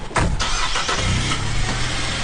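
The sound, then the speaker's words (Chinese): A car engine pulls away as a vehicle loaded with supplies leaves an army camp. A loud, steady mid-pitched engine drone holds throughout with no talk. “物资全部装车后，记者也跟车出发了。车辆从营区出来，顺着柏油大道行进半小时后，进入到一条狭窄的山路。”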